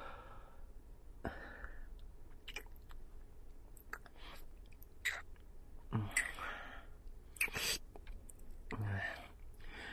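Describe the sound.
Chewing and eating jam: faint, wet mouth sounds and soft smacking clicks that come in irregular bursts over a quiet background.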